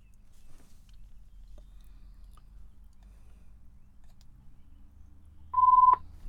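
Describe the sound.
A steady telephone tone, a single loud beep near the end lasting about half a second, follows several seconds of quiet low background rumble.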